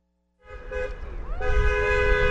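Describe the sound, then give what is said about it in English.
Car horns honk on a Friday evening in support of protesters on a street corner in Menominee, near the Michigan-Wisconsin border: loud sustained blasts, with a second horn joining partway through, over a low traffic rumble. “On this Friday evening, cars honk in support of protesters who stand on a street corner in Menominee, just across the border from Marinette.”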